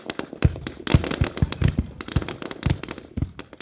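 A Chinese army brigade's artillery and machine gun troops fire at targets downrange: many sharp, crackling shots come in quick, irregular succession, with a few heavier, deeper bangs among them.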